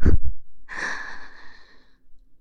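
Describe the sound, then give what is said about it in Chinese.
Breathy panting: a short, sharp intake of air followed by a longer, soft, airy exhale that trails away into quiet. “只不过是在弟弟耳边说出了那几个字，弟弟就又开始忍不住喘息了。”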